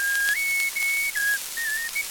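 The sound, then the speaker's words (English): A person whistles a simple tune while flying in a plane: a few clear, held notes step up and down in pitch, fairly loud and steady, with no talking. “Quit that whistling”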